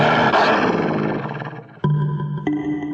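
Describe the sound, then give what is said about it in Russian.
A wolf growls furiously in a dark cave, a rough, loud, sustained roar that gradually thins, followed by two sharper, abrupt bursts near the end. “Во мраке пещеры волчьи глаза горели зеленым огнем. В горле клокотал яростный рык.”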